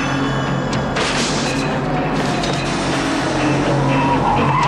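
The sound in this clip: A car driving in pursuit in a film chase scene, tires skidding: a loud, continuous engine roar with tire squeal that swells sharply about a second in and stays dense to the end.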